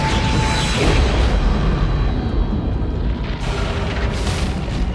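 A deep, roaring explosion from an asteroid impact, a rock about six miles wide, rumbles loud and unbroken for the whole stretch with no separate blasts.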